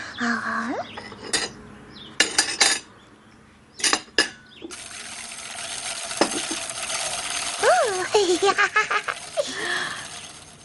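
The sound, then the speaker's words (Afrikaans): Sifted dry ingredients are mixed in a large mixing bowl, with irregular clinks, knocks and scraping of utensil against bowl, and a voice briefly in the background. “En dan meng jy dit met die gesifte droë bestanddele in die groot mengbak.”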